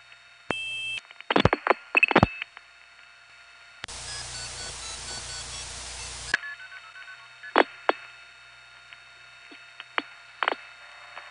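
Telephone keypad tones dial a number on a line that reports it is not in service: a quick cluster of short beeps, a steady tone and a stretch of hiss, then a few more spaced beeps.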